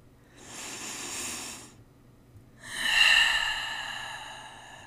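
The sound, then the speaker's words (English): A deep breath is drawn in and let out as two long, airy rushes of breath separated by a short pause, the second one louder and more hissing. “Take the deepest and biggest breath you have taken all day right now.”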